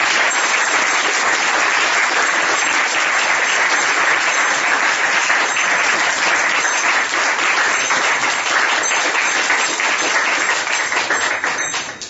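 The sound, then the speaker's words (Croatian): An audience in Belgrade applauds loudly to welcome guests, including a Bhakti Yoga teacher and monk. The dense, even clapping holds steady for about twelve seconds and tapers slightly at the end. “Molim vas za jedan veliki aplauz da pozdravimo naše gosti”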